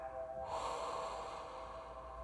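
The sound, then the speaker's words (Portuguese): A long, slow exhale during a breathing exercise, emptying all the air from the lungs. After a brief pause it becomes a soft, steady, breathy rush that lasts to the end. “inspira um, dois, três, quatro e solta todo o ar dos pulmões”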